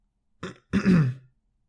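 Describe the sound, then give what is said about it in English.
A throat is cleared with a brief rough catch and then a longer, lower gravelly rasp. The sound is loud and clear, with no talk around it. “cleared his throat”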